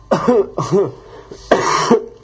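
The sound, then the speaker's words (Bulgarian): Coughing and throat clearing from a person during a bout of heavy head colds, three rough, harsh bursts in quick succession, the last one longer, loud and close with no talk around them. “ефир е полен с кашлици, кихавици и така нататък.”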